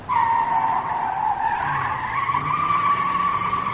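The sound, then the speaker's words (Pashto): Tyres skid on a fast-driven car, a loud, sustained squeal with a steady high whine that wavers slightly in pitch over a low engine rumble, with no talk. “څومره موټر تیز چلای؟ استاذه دا څه کوې؟ مخکې مې درته وویل چې موټر لږ په آرامه وچلوه، دا څه کوې؟”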